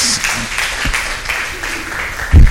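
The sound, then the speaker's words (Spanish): Applause from a class in a Christian theology course for a student group after its presentation, irregular clapping with individual claps audible and a louder thump near the end. “vamos a darle un aplauso al grupo número 3.”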